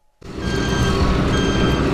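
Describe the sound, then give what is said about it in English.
An 18-wheeler truck spins its tires through snowy mud on an undeveloped oil well pad in Wyoming's Powder River Basin. A loud, steady rumbling roar begins after a brief silence and holds without a break. “An 18-wheeler spins its tires through snowy mud on an undeveloped well pad in Wyoming's Powder River Basin”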